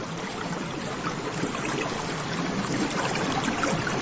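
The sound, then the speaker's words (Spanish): Flowing water rushes in a steady, continuous hiss with no breaks or distinct splashes, holding an even loudness throughout. “Agua.”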